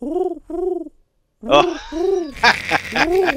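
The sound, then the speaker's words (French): Pigeon-like cooing in a few rounded hoots that rise and fall, with a short pause after the first pair. The later coos are joined by broad, noisy bursts. “C'était le bruit d'un pigeon.”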